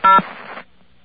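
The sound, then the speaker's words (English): A single touch-tone beep from pressing 0 on a telephone keypad to reach an AT&T operator. It is a loud, brief tone followed by a short stretch of faint line hiss that then cuts off. “I dialed 0 for an operator.”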